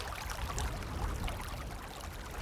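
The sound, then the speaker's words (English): Running water flows through a rill water feature in a wellbeing garden, an even, continuous splashing rush heard on its own. “So plenty of people say that they feel better if they are surrounded or near water. And so we have two different water features within the Wellbeing Garden. So we've got a rill, which gives us the more running water.”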